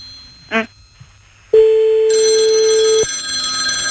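A telephone ringing tone while calling a father-in-law's home: a single steady, loud tone lasts about one and a half seconds, then breaks off into a hissing line.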